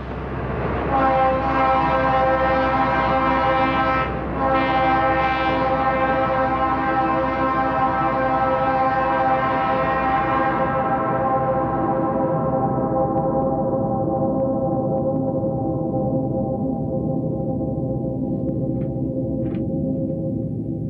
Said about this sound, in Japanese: 電車の音を録音してそれを音楽的に作っているというものです。